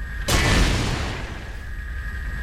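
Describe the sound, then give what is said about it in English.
A rocket is shot down in a video game with a single sudden explosive boom that fades into a long rumbling tail, while a thin, steady high tone runs underneath. “So I'm using Alt to shoot the rockets down.”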